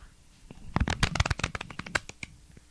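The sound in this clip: Playing cards being shuffled: a quick burst of many crisp, papery riffling clicks that swells to a dense flurry and then thins out, with no voices.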